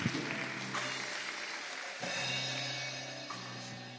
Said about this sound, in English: Let's clap our hands for Jesus.